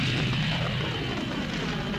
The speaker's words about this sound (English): The Millennium Falcon ignited its ion engine, and raced off through the train of drifting space junk toward another system.